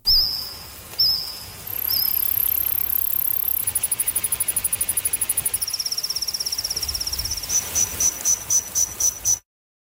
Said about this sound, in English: a new study that recreated the sounds made by various species of insects during the Jurassic era.